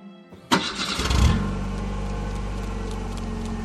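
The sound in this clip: Car engine starting: a short burst of cranking that catches quickly, then settles into a steady, low idle hum.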